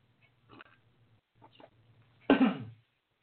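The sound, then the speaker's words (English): Coughing and throat clearing: a few faint, brief throat-clearing sounds come first, then one loud, harsh cough that trails off. “And I'm going to take that real quick, hopefully get my throat cleared out.”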